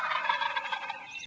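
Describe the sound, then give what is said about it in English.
A wild turkey gobbling: one rapid, rattling gobble lasting just over a second, a dense fluttering warble heard alone and fairly loud. “hear a turkey gobble.”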